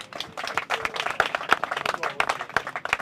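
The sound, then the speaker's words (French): A small audience of about four people applauds at an evening show, with sparse, irregular hand claps of uneven loudness that patter on for a few seconds without cheering. “Si vous aviez aimé, merci d'applaudir encore.”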